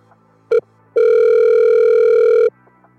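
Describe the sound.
A telephone tone plays as a call is placed through a smart speaker: a short beep, then a long, steady, loud tone lasting about a second and a half, with nothing else over it.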